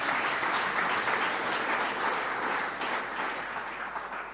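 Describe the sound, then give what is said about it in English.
Audience applause for a book during a religious teaching session: dense, steady clapping that stays loud throughout and tapers slightly toward the end, with no voices over it. “Can you clap your hands for this book?”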